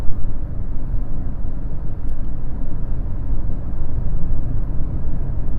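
Steady low rumble of a car driving through Zurich. Constant engine and road noise runs throughout, with no talk.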